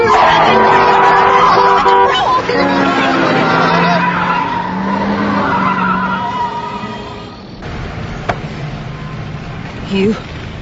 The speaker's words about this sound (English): We're going to be killed! Oh, no. Just keep your hands on the wheel and slow down!